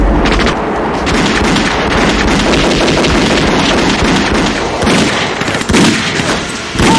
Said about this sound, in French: Puis là, il y a une fusillade qui commence.